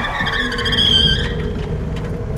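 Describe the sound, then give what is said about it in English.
A car skids on the road after its rear right tire bursts, with a sustained, loud screech of wavering high tones over a rough rumble. “Suddenly, the car was either dropped or forced down onto the road, bursting the rear right tire.”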